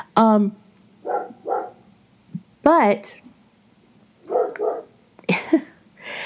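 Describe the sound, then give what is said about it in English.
A dog gives a couple of sharp, high yelping barks, with a person talking in the gaps between them. “if you just heard my dog, I apologize. I think I say that every week now.”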